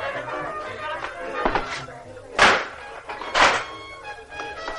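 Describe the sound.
A door being shut, heard as a few dull thumps over a busy, steady background.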